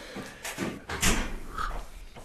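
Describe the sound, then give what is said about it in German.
A refrigerator door opens in a home in northern Hesse, with rustling and knocking handling noises, a louder thump near the middle and a steady low hum underneath. “Jetzt mal gucken, was der Kühlschrank zu bieten hat. Ah, es klimpert.”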